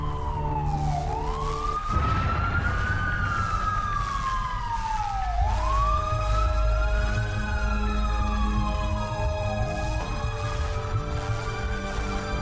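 Ambulance siren wailing in slow cycles, its pitch sweeping up and down repeatedly over a steady low engine rumble, loud and continuous throughout with no voices.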